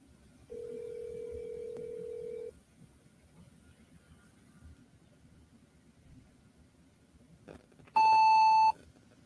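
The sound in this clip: Telephone voicemail tones: a steady, low, held tone lasts about two seconds, then a long quiet stretch, then one short, bright, high beep near the end. No one talks.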